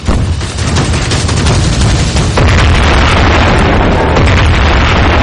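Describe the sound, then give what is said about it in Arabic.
Tank explosions in a radio-drama battle: a loud, dense roar of booming blasts and crackling bursts that grows louder partway through. “الله أكبر الله أكبر، الدبابات الأمامية بقت كتلة نار.”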